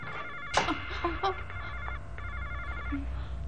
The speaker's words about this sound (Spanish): ¿Por qué no contestáis al teléfono, eh? Sois unas irresponsables. Vuestro deber es contestar al teléfono.